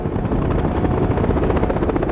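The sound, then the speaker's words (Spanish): A helicopter flies over jungle at sunset, its loud rotor chop beating rapidly and steadily over a deep engine rumble. The sound stays constant and continuous throughout. “Al atardecer, el helicóptero sobrevuela la selva.”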